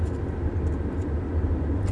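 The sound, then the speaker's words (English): The low, steady rumble of a car being driven hums continuously at moderate volume, with no voices. “Sorry, I'm driving and talking.”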